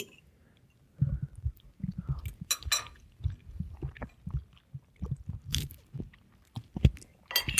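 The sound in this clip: Chewing and biting on a peppered tofu dish: many moist, crunchy bites and mouth sounds in irregular bursts after a short quiet opening, close and fairly loud, with no talk.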